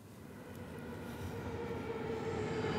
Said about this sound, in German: Nicht jeder ICE aus Berlin fährt durch bis Hamburg-Dammtor.